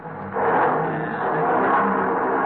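A car engine revving after being tuned up to run smoothly: a sustained, even roar that starts abruptly and holds at a fairly constant pitch and loudness.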